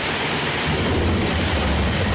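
Rushing floodwater and rain in a flooding video from Tuxtla: a dense, steady roar of broad noise with a heavy low rumble that continues unbroken throughout.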